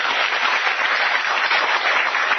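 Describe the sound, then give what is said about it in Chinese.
A lecture audience gives a round of applause, producing a dense, continuous patter of clapping at an even, moderately loud level throughout. “好，来，掌声鼓励。”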